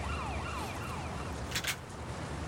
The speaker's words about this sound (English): Looks like we got some ambulances picking up Ling Shan.